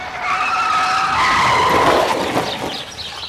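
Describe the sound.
A car's tyres skid at a street crossing, making a loud, sustained squeal with a wavering whine that holds for about three seconds over the engine's rush. No voices are heard.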